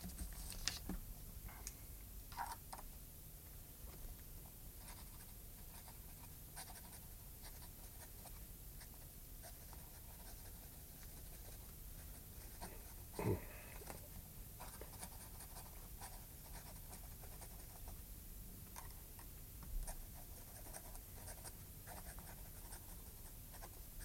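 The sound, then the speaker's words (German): Faint, steady scratching of a pen on paper as a last letter is written by hand, with a few soft taps and knocks over a continuous low background noise. “Und den letzten Brief? Schreiben Sie noch hier. Dazu brauche ich nicht lange.”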